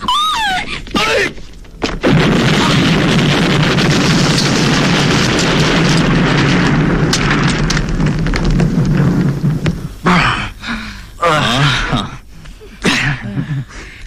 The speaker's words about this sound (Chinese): 定时炸弹，快躺下。